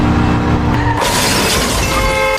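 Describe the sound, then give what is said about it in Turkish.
A motorcycle crashes into the rear of a car in a road accident. A steady engine hum is cut by one loud impact with shattering, followed by sustained harsh noise. “Motosikletteki genç frene bassa da duramadı. Aracı arkadan çarptı.”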